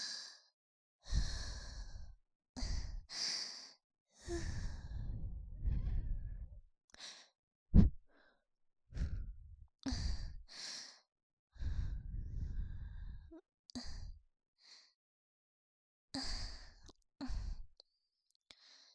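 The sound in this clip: Breath is blown gently in many soft, airy exhales, each followed by a short silence. The breaths stay fairly quiet and whispery, with one sharp click near the middle.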